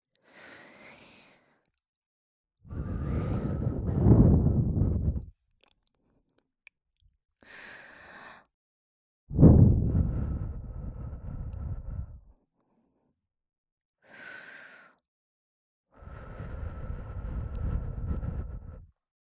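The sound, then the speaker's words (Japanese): Soft breath blown gently into a listener's ear: several long, rushing, breathy blows alternating with shorter, quieter puffs, separated by silence. “じゃあ次こそお耳ふうふうしますね。”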